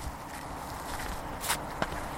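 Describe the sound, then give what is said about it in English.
Footsteps walking around a former excavation site paved with later-laid slabs. The steps are soft and irregular over steady background noise, with a couple of sharper footfalls near the end and no talking. “Okay, we'll walk around this bit, shall we?”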